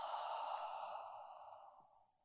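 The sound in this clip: A single long, soft exhale during guided meditation breathing: a breathy, airy hiss that slowly fades away, heard alone.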